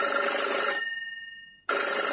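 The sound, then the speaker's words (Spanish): A telephone bell rings in a bright electronic trill that fades away. After a brief silence, a second ring starts abruptly at full loudness. “¿Sí? Dígame. Otra vez. A ver si es que el teléfono va a estar... Pues no, qué raro.”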